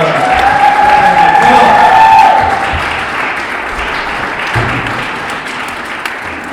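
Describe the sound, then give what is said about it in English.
A church audience at Vine Church in Dunfermline applauds a welcome for a guest speaker. The clapping is loud and dense, with some cheering mixed in, and it is strongest at first before easing off into a softer, steady patter. “So without any further delay, let's just give a big Vine Church welcome.”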